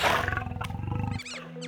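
A lion roars in a deep, rumbling, rapidly pulsing growl that holds for just over a second before breaking off, fairly faint overall.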